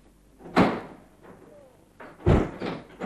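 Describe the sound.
A door being opened, heard as two loud wooden thuds about 1.7 seconds apart, with softer rattling and scraping of the door between them.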